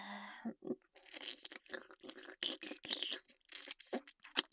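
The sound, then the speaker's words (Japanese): Crunchy chewing as someone takes a quick taste of food, many irregular crisp bites and crackles in an uneven rhythm, fairly faint and close, with no talking over it. “ちょっと味見しちゃおっと。”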